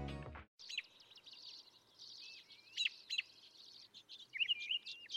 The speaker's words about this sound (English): The sound you're hearing is spring beginning, the song of the robin.